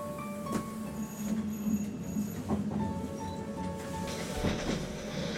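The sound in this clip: Steady rumble of a Dutch passenger train in motion as it approaches Deventer: a continuous low roar with faint high tones and a few soft knocks, with no voices.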